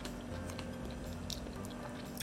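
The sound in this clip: Faint chewing of extra-sweet Shinshu corn on the cob: soft, moist bites and squishy crunches come in a few scattered bursts over a quiet background.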